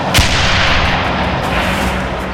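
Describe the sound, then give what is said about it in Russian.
An artillery gun fires one loud, sharp shot at an enemy tank, then a deep rolling boom rumbles on and slowly fades over the following seconds. “Прямо на них вражеский танк едет. Прадедушка командует. Огонь!”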